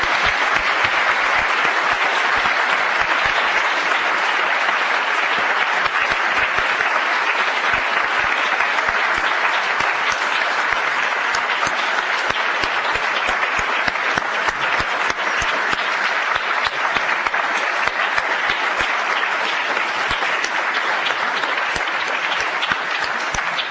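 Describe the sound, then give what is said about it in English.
Sustained audience applause for two presenters at a public conference on faith and secularism. A dense, even clatter of clapping runs the whole stretch without a break or voices. “let's hear it for these two wonderful presenters.”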